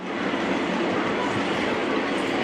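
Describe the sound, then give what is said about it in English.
A train cruising slowly through a market along the tracks gives a dense, even rumble of wheels and carriages, steady in loudness throughout with no talk over it. “Everyone is safe because the train slows down, so it's not coming at a full speed. It cruises through the market slowly.”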